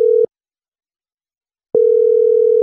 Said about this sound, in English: So right now we'll just dial the number and, all right. So we're calling him.